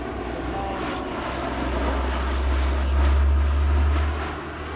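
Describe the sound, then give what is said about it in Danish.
An airplane lands with a broad, steady engine roar over a deep rumble. The rumble swells toward the middle and eases slightly at the end. “Efter mange måneder på farten, så lander Louis Armstrong endelig hjemme i USA.”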